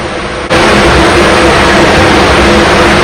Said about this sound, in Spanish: ¿Iniciamos el proceso? Inició el proceso. Arrancó el motor.